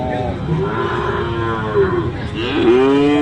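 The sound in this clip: A cow at a cattle market where sacrificial cattle are sold gives a loud, drawn-out, low moo, then a second moo begins near the end.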